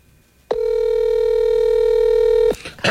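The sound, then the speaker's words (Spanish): A telephone tone sounds as one steady, loud note held for about two seconds. It stops abruptly, and a short burst of noise follows. “Ahí está marcando. Se escucha cuando marca.”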